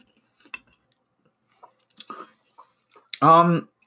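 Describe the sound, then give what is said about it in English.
Chewing a meatball with Burman's cayenne pepper sauce: a few soft, scattered mouth clicks and smacks, then a short hummed vocal sound. “So I'm going to have some of that with the sauce and just see how it tastes, if it fits well in with the with food itself, see if it adds too much. So let's try it.”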